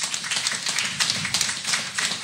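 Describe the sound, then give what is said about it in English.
An audience applauding a team of staff at a briefing, with moderate, steady clapping made of many crisp overlapping claps and no talking. “Guys, I want you guys to give my team a round of applause.”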